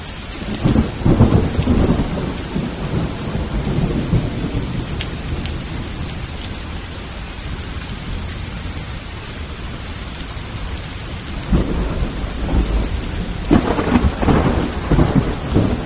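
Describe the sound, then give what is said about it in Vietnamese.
Heavy rain falls steadily with wind, a dense continuous roar, and deep rumbles of thunder swell near the start and again toward the end. “Bốn bề yên tĩnh lạ thường, chỉ nghe thấy tiếng gió thổi mưa rơi.”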